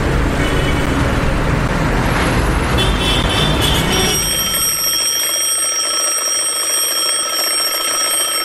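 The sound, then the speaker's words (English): An alarm clock rings in a song. A few seconds of broad rushing noise give way to steady, shrill electronic tones that ring continuously to the end. “There goes that old alarm clock once again. Can't get this pillow off my head.”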